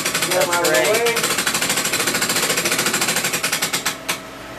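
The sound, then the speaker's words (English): Rapid ratcheting from a wrench mechanism used to raise a bank of lights over a tank: a loud, fast, even train of many mechanical clicks that runs steadily, then slows and stops near the end. “So we actually have to raise these lights to get in there. So we have a nice little wrench set up here. Lights up.”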